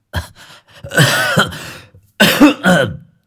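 An old man coughs violently in harsh, hacking bursts, some short and some drawn out, separated by brief silences. The coughs are loud and raspy, forming a few fits in a row.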